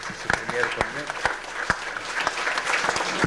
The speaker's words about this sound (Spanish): Vamos a dar un aplauso para los niños y niñas.